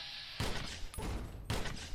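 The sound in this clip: Video game gunfire during a fight with lobotomite enemies, one of them charging with a super sledge. Dense volleys of shots sound over continuous noise, with three loud bursts standing out.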